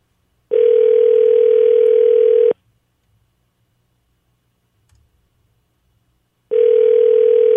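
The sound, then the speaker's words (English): Telephone ringback tone heard while a call goes through: two steady, loud, mid-pitched tones of about two seconds each, separated by a long silence. “Their ring doesn't sound as weird.”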